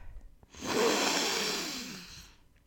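A cellist takes one slow, deep breath in, as a musician does before a sad, somber note. It is a soft, airy hiss that swells and then tapers off over about two seconds, with no other sound.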